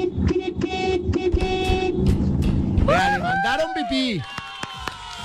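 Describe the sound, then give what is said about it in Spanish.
A novelty horn toots a brief melody of bending, wavering notes after a stretch of crowded chatter, with noise and voices continuing around it. “Le mandaron su pito por ahí.”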